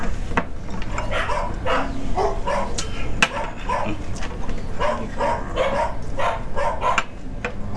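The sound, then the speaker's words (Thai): A neighbour's dog crying out while being hit, with many sharp yelps and whimpering cries repeating in an irregular rhythm over a steady background noise. “เสียงเหมือนหมามันร้องไหมนะคะ อ๋อหมาคนข้างบ้านอะ ผู้หญิงข้างบ้านเขาตีหมาตัวเองอะค่ะ”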